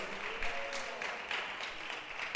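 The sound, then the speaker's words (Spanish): Faint applause from a church audience at the close of a service, a soft, loosely rhythmic patter of hands that stays quiet throughout. “Démosle un aplauso al Señor nuestro Dios, y con ese aplauso vamos a finalizar.”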